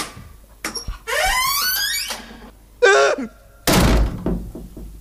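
A cupboard door opened to hang up a coat: a dull thunk, then a long creaking squeal, a shorter creak and a heavy bang as the door moves.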